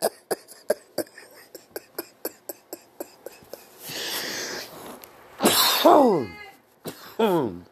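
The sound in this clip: Coughing after a hit from a bong: a rapid run of sharp, evenly spaced clicks, then a breathy rush and a few harsh, strained coughing fits.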